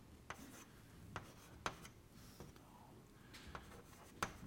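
Faint scratching of a pen drawing a vector arrow on a diagram, a few light strokes and small taps over a soft, steady background hiss.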